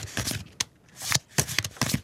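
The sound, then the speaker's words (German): Playing cards for a game of Jass are shuffled and dealt quickly, heard as several short, faint riffling and flicking bursts separated by brief pauses. “Schnell mischen. Und dann Karten verteilen.”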